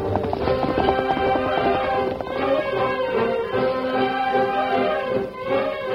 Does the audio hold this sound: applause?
no

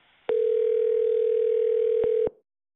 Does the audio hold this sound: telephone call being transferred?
yes

